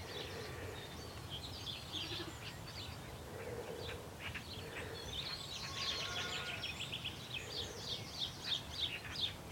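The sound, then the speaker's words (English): Bird calls near extensive farm buildings where house martins nest under the eaves: house sparrows chirping and house martins giving little clicking calls, many short, high, faint notes over a low background hiss. “There's some house sparrows. So the house martins are, they've got a little clicking call. Couldn't be too far away to hear it.”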